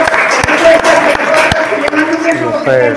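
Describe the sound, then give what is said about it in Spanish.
Audience applause greeting a guest coming on stage, a dense wash of clapping that runs throughout with voices talking over it. “¡Un aplauso!”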